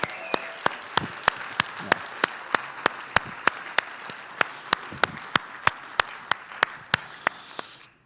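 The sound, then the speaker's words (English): A church audience claps to welcome young folks joining the Sunday gathering, with many sharp, evenly spaced claps in a steady rhythm over a soft wash of general applause. “And I think that we should welcome them with a level of enthusiasm that demonstrates that we are glad to have our young folks in church with us. So will you please?”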